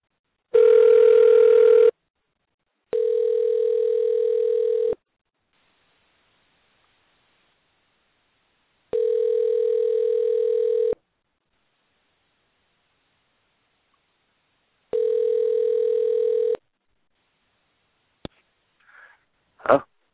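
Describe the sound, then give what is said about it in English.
Telephone line tone while calling someone back: four steady buzzing tones, each about two seconds long, separated by long pauses, followed by a few faint clicks. “I'm going to try to get Sinash back on the line here”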